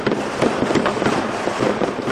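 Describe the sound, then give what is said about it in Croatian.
Fireworks and firecrackers go off at a New Year celebration in a city square, a dense, loud crackling and popping that carries on without a break. “veliki broj vatrometa i petardi obeležili su poslednje i prve minute 2012. i 2013. godine.”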